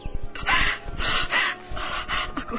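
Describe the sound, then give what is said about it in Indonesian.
A little girl cries in a few surging wails, broken by sharp gasping breaths and sobs, loud and strained. “Walah, nona cilik menangis. Aneh sekali.”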